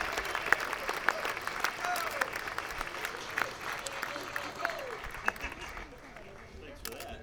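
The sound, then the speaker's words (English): A crowd applauds to welcome the host of a mandolin extravaganza, with dense, lively clapping and a few scattered louder claps, thinning slightly toward the end. “A man who ought to have Lloyd as his middle name, Mr. Tony Williamson. Give him a hand.”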